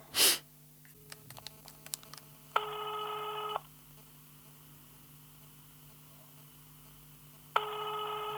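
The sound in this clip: A telephone being dialled to place a call: a sharp clatter and a few faint clicks, then two steady tone bursts of about a second each, separated by a long quiet gap.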